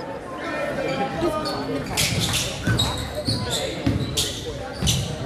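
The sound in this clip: Basketball dribbled during a high school game: a few dull bounces under steady crowd noise and a commentator's talk.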